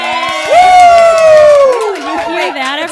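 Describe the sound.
Live studio audience cheering and whooping, with one long, loud, high voiced whoop over a backdrop of overlapping shouts and chatter that carries on throughout.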